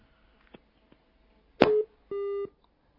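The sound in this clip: A telephone line gives a busy tone after the caller hangs up: a soft click, then two short, steady, mid-pitched beeps separated by a brief gap. The sounds are fairly faint against a quiet background.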